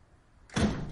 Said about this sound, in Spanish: Abre la puerta exterior y entra.